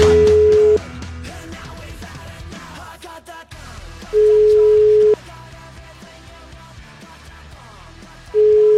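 Ringback tone on a phone line while a call is placed: steady, even beeps about a second long, repeating a few seconds apart, with the last one cut off, over a low, busy background.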